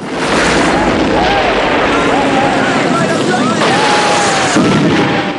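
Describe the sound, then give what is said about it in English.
An empty car explodes after bikers throw petrol bombs onto it from a roof: a loud, sustained roaring blast noise fills the whole stretch, with voices over it. “On a roof, bikers throw petrol bombs down at an empty car. It explodes.”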